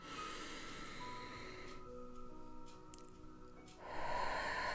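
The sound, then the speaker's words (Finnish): A deep breath in during a guided relaxation exercise, a faint airy inhalation swelling near the end over quiet sustained background tones. “Hengitä syvälle sisään.”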